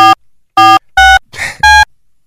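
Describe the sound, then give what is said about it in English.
Telephone tones from a studio phone dialing out on a call that fails to connect: a few loud, steady, buzzy tone bursts separated by short gaps, with one rougher, noisier burst near the end. “Hang on, I have to remember how to dial out from here.”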